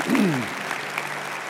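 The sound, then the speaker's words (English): Applause from a church audience at a child dedication, a short burst of dense clapping that starts loud and quickly settles to a steady level, with a voice briefly at the start. “Let's give them all a big cheer.”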